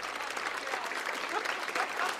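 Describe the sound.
An audience applauds for the Isaacs, a Southern gospel group, with dense, steady clapping that holds at an even level from start to finish.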